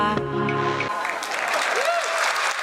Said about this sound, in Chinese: 展示 AI 及时作曲能力，台下传出掌声、惊呼声。